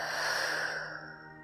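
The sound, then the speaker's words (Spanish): A deep breath released through the mouth during a guided breathing exercise: one soft, airy exhale that is steady at first and then fades out over about a second. “Inhala profundo por nariz. Y por tu boca sueltas.”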